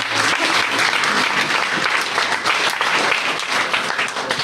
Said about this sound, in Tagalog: Come on, clap your hands to Jesus.